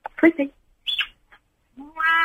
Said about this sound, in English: He's a very chatty cat. He's a Burmese, and they're known to be very vocal.